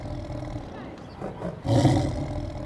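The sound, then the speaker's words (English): Tigers roaring: a deep, growling roar surges up at about one and a half seconds and rumbles on to the end, over a low, noisy background. “They're tigers. Tigers! Roar!”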